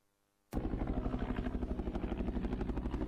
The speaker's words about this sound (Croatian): Helikopter NATO pakta danas je provokativno nadlijetao mjesno groblje u Vojkovićima.